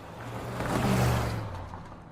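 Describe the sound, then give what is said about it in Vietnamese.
A car drives away from a villa, its low engine hum and broad whoosh swelling to a peak midway, then gradually fading, with no voices. “lái xe rời khỏi căn biệt thự.”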